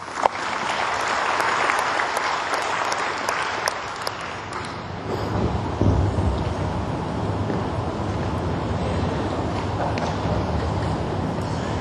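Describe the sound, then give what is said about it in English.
Round of applause for honorees at a ceremony that also awards student scholarships: dense, loud clapping in the first few seconds that gradually thins and softens, with a low rumbling undertone throughout. “Give these honorees a good round of applause.”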